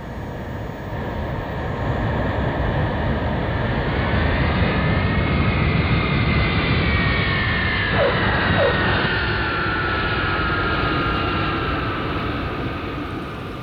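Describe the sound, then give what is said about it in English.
An airplane coming in to land at an island: a loud, steady engine roar with a droning whine over it, holding level throughout with no voices. “Passengers, please prepare for your landing and enjoy your stay on exotic Tiki Island.”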